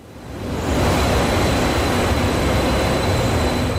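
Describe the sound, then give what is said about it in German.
Regional passenger train running on the tracks between Lübeck and Kiel: a steady, dense rumble that swells in the first half second and then holds evenly loud, with a thin high whine above it. “Noch fahren die Nahverkehrszüge zwischen Lübeck und Kiel ohne Probleme.”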